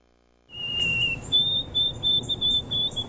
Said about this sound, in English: That's the song of the white-throated sparrow.